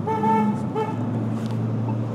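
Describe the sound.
Car horns honking: a sustained horn blast followed by a shorter second toot, set over a steady low rumble of traffic.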